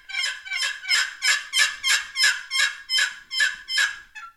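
Turkey yelps from a turkey call, about ten evenly spaced, bright, raspy notes in a steady rhythm, each rising and falling in loudness, closing with a short faint note, with no talking.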